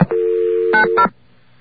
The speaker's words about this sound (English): Whoops. Dialed the wrong number.